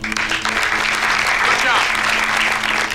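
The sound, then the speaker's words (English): Applause from a group of people in a room, a steady, dense wash of clapping that holds loud and even throughout, with a low hum running beneath it. “You should all take a moment. Give yourselves a big hand.”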